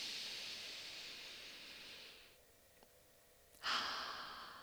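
A person taking a breath: a soft, airy breathing sound that stretches over a couple of seconds, then a quiet pause, then a sharper, louder burst of breath that trails away.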